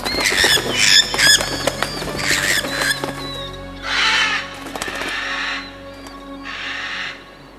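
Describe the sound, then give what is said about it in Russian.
Flocks of birds gathering and flying off, with many harsh caws and squawks overlapping and several bursts of rushing noise, loud and continuous, with no voices. “Все птицы в стаи собираются. Вон-а. Гляди, прямо косяками улетают.”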